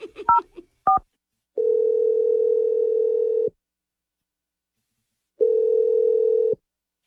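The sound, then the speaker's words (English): Telephone tones while a number is dialed: a few short dialing beeps, then two long, steady tones separated by silence. “Yeah, we're going to dial his number right now. Here we go.”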